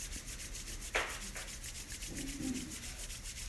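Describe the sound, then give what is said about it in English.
Palms rubbed together to build heat: a short, dry swish of skin friction with a fainter second stroke, quiet over a soft, steady rhythmic background. “your palms together and rub, creating heat.”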